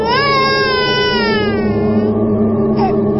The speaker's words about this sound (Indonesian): Tapi terdengar suara bayi menangis.